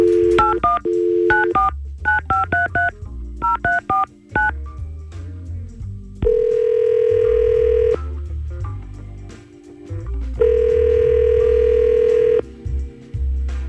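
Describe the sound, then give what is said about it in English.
Telephone dialing a call: quick clusters of touch-tone beeps, then two long, steady ringing tones separated by a pause, all over a low background bed. “All right, so we're going to try to call Jackson right now and see what's going on.”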